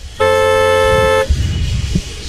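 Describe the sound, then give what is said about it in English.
A car horn blares as fans honk after a football game, one loud, steady, buzzy honk lasting about a second, then a low rumbling background of traffic noise. “On the count of three, honk your horns or shoot us the text. Ready? 3, 2, 1, let her fly.”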